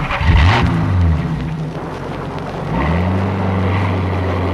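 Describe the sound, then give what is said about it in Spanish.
A car engine revs as the vehicle pulls away, its loud note climbing in pitch, easing off, then rising again and holding a steady drone. “El criminal obedece la orden a regañadientes y acciona la marcha del vehículo.”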